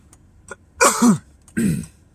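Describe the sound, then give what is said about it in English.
Two loud coughs, more like throat clearing, sound alone with a short pause between them. Each is a rough burst of breath and voice. “Extra coughs today.”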